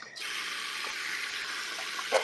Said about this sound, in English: Like me spitting into the sink.